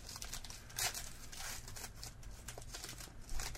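Crinkling and tearing of a sealed trading card pack wrapper with no seam to pull, a faint, continuous plastic rustle with a few sharper bursts as the wrapper gives.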